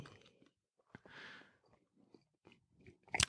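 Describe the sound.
Faint chewing and biting on a tutti-frutti flavoured jelly bean: soft, scattered wet clicks and mouth smacks, then a sharper, louder crunch at the very end.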